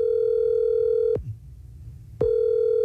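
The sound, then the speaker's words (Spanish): A steady telephone line tone plays while a call is being dialled. It breaks off with a click, goes quiet for about a second, then returns just as loud with a second click. “Está marcando.”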